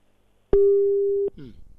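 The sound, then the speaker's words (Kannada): A telephone tone sounds after a phone-in call disconnects: one steady, mid-pitched beep held for under a second, with speech following right after it. “ಕರೆ ಕಟ್ಟಾಗಿದೆ.”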